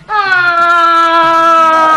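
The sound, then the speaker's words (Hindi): A girl crying, one long high-pitched wail that starts abruptly and is held for about two seconds, its pitch sagging slightly toward the end. “तुम रोती क्यों जा रही हो? कुछ बताओ तो सही, आखिर हुआ क्या है?”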